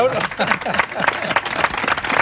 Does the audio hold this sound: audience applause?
yes